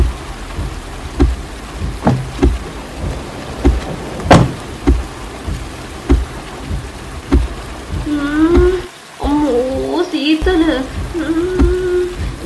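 Heavy rain pours down suddenly during a storm, a steady wash punctuated by many scattered sharp knocks and patters of varying loudness, with a brief dip near the end before the downpour continues.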